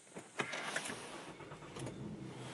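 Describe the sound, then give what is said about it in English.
Car sounds from a new Acura RDX: a few sharp clicks and thumps near the start, then a steady, faint mechanical hum. “That's the sound of my Acura RDX that my daughter just bought for me yesterday.”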